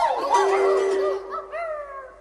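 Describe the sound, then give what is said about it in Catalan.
A dog barks and howls in tonal, wavering cries, loud and alone over a steady low hum, with a few separate calls after a longer opening stretch. “Ja amb les dues bordades de gos.”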